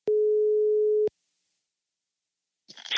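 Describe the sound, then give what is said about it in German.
A single steady ringback tone of an outgoing telephone call, mid-pitched and lasting about a second, followed by silence and then a short burst of rough noise at the end. “Und darum rufen wir Lothar jetzt an.”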